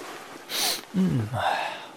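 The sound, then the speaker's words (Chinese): A voice acts out a sneeze: a short, sharp, breathy burst followed by brief voiced snuffling sounds, moderately loud and on its own. “英韶打了个喷嚏，一揉鼻子”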